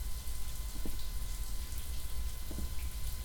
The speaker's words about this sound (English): he drove me home and yeah, he's in the shower.